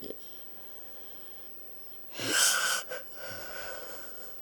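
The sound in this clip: A raspy, wheezing breath rises out of a quiet background, with one loud rough burst followed by a softer, trailing breath.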